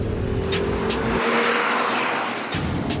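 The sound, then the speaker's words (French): A car drifting gives a loud, continuous roar of engine and tire noise with a steady droning tone, holding strong for about three seconds. “Je t'avais dit qu'on ferait un peu de drift.”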